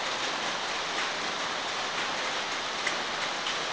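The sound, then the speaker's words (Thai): Rain falling on a roof, a dense, even hiss that holds steady without breaks or voices. “มีฝนตกลงมากระทบหลังคาเรารู้สึกว่ามันรบกวนการฟังใจมันมีอาการเป็นลบรู้สึกเป็นลบ”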